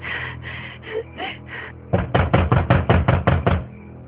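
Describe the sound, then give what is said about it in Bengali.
Knocking on a door at night: a few softer, muffled knocks, then a rapid run of many loud, heavy knocks in steady rhythm. “এত রেটে কি দরজে ধাক্কা দে?”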